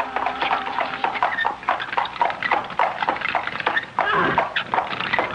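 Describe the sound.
Hooves of a horse-drawn carriage clip-clop in a steady trotting rhythm, a long run of crisp, evenly spaced clops over a low rolling rumble.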